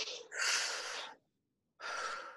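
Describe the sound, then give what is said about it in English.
A breath drawn in through the mouth, heard as loud, airy, breathy noise in two bursts separated by a short silent pause, with no talking. “Try it now. Like, let's take a breath through our mouth.”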